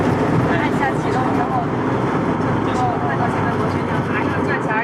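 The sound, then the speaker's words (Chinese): Propeller aircraft engine running at start-up, heard from inside the cabin as a loud, steady roar, with voices talking over it. “啊，启动发动机了啊。 好。哦，马上按下启动，然后”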